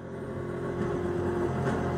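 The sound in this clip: Low, steady engine drone of a Bentley car setting off on a racing circuit lap, a humming, harmonic rumble that grows slightly louder partway through.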